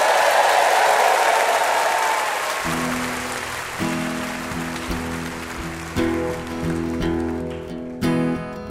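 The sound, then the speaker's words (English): Audience applause for a guest at a live quiz show taping: a loud, dense burst of clapping that fades over a few seconds as steady musical tones take over. “Let's hear it for our VIP, Curtis Sittenfeld.”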